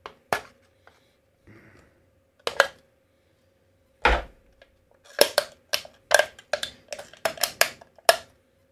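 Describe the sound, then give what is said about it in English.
Sharp metallic clicks and scrapes of a Williams knife cutting open a can: a few isolated strokes, then a quick run of many short, crisp bursts, with no talking. “Fucking mess up my Williams knife cutting open this fucking can.”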